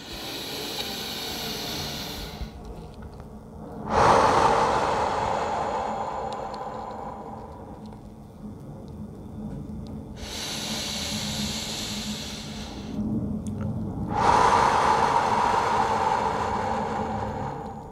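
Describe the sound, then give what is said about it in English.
Slow, deep breathing during a guided breathing exercise: two full cycles of airy, hissing inhales, each followed by a longer, fuller exhale, with no talk over them. “Deep inhale. And exhale. Give me three more nice deep breaths.”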